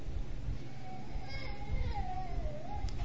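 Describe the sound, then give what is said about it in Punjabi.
Children's voices rise from an audience during a Sikh religious talk, with a thin, wavering child's cry or call drawn out over a constant low crowd murmur. “ਬੀਬੀ ਉਹ ਬੱਚਿਆਂ ਚੁੱਪ ਕਰਾਓ ਮੇਰੀਆਂ ਭੈਣਾਂ”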